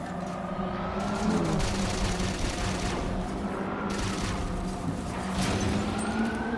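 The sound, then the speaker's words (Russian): Constant gunfire in a large-scale video game battle scene with vehicles: dense, unbroken bursts of shots layered over a steady, loud roar. “Так кто тут постоянно стреляет, блин?”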